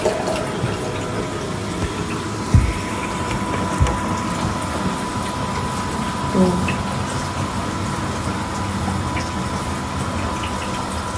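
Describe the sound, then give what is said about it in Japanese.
Automatic toilet flushing water: a loud, steady rushing hiss of running water fills the whole clip, with a couple of faint thuds along the way. “ちょっと音うるさいんでトイレのやつ切ります。”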